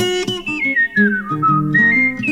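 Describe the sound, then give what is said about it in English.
A blues tune is whistled in a clear, steady melodic line that glides between notes, dips lower midway and then rises again, over a low sustained accompaniment. “Walking down the street, just whistle my blues away.”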